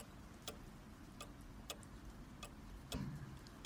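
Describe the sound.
A clock ticks faintly and steadily, its sharp, dry ticks spaced roughly evenly over a low background hum, with no talk.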